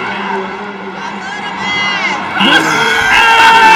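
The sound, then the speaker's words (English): A studio audience cheers, whoops and screams as actor Michael Ealy is announced, a loud, continuous crowd roar that swells slightly toward the end. “And here's Michael Ealy gets announced. And listen to the audience, though. They wouldn't stop. This went on for about a minute or two.”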